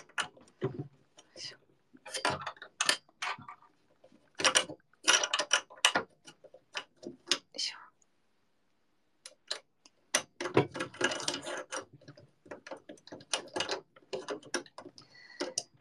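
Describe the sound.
Screws being turned to assemble something: many quick ratcheting clicks and mechanical ticks in irregular bursts, with a short pause partway through.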